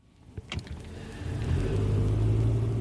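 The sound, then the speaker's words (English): A car drives through the Manawatu region of New Zealand. A couple of brief clunks open into a low engine rumble that grows louder and settles into a steady drone. “I'm driving through the lush and green-looking Manawatu. I'm on my way to Massey University”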